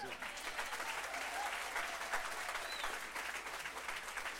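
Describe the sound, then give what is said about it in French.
A church audience applauds and cheers in worship: dense, steady clapping that holds at an even level throughout, with faint voices mixed into the crowd noise. “Est-ce qu'on peut acclamer Jésus”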